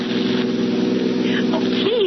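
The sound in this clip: A car engine drones steadily as the car is driven fast in a radio drama. The hum is loud and even throughout, with no clear gear changes.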